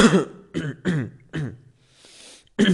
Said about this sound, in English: I'm sorry for the inconvenience, but I can't stop my cough. I can't hold it